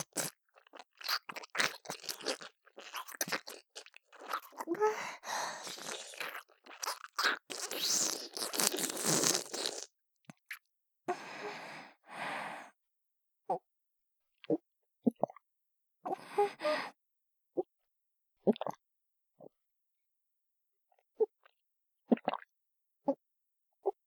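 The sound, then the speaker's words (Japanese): Gulping swallows and wet mouth noises sound right by the ear. A dense stretch of smacking, crunching clicks gives way to sparse, isolated gulps and soft plops separated by silence. “耳元で大きな音立ててごっくんするからよーく聞いててね。”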